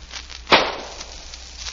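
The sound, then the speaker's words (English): A single pistol shot fired into a cotton bale: one sharp crack that decays quickly over a steady background hiss. “We're going to shoot a bullet out of the gun we took from Samuel Payton into that cotton bale.”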